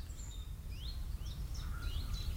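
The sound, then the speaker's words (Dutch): Birds call outdoors in short, high chirps and quick sweeping notes, several in a row, faint over a low steady rumble. “Ik blijf zitten en concentreer me op de vogels.”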